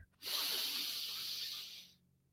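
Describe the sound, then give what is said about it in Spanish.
A long breath drawn in through the nose during a guided breathing exercise for anxiety. It is a steady, airy hiss lasting under two seconds, with no talk over it. “Vamos a inhalar dos veces por la nariz.”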